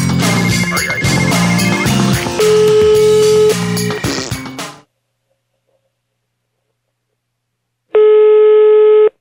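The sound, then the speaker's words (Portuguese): A single steady electronic telephone tone sounds as a call is placed, loud and unbroken for just over a second. It follows a stretch of music that cuts off into silence. “Eu vou ligar de novo agora, peraí.”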